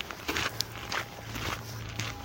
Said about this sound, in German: Sonst hört man jetzt nur meine Schritte.